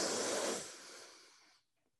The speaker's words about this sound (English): we want to breathe in as quickly as possible, filling our lungs to capacity, holding at the top, and then releasing it slowly. So let's do that. Breathe in.